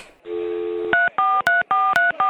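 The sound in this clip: A phone number is keyed in: a steady dial tone gives way to a rapid run of short touch-tone beeps at shifting pitches, each cut off by brief gaps, loud and clean.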